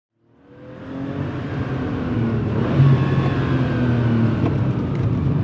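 A big Porsche speeds up an access road, its engine swelling from silence into a loud, steady roar with climbing engine tones and no voices.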